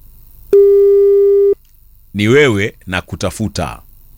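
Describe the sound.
A telephone call tone plays while waiting for someone to pick up: a single steady, loud electronic tone lasting about one second, followed by a short pause and then a person speaking.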